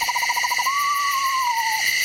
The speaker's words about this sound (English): It's a pair of screech owls, on the other hand, calling back and forth to each other, which produce this hypnotic, undulating trill.